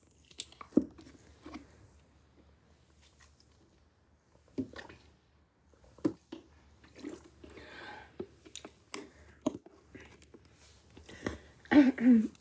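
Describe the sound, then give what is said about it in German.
Someone takes a drink in soft, sparse gulps and swallows with faint wet clicks between stretches of near quiet, then a louder cluster of mouth and liquid sounds comes at the end. “Ich muss kurz was trinken.”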